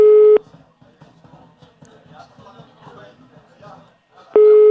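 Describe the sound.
Telephone line tone as a radio show phones a listener: a loud steady electronic tone sounds briefly at the start and returns at the end, with talk in between.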